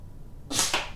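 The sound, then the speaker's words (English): A thrown dart gives a sudden airy swish followed closely by a second short burst, brief and moderately loud against a quiet background. “Third dart.”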